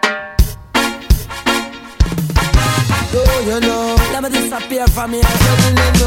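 A music track opens with punchy, spaced beat hits and bright sustained tones. It then settles into a fuller, steady groove with a deep bass line, loud throughout.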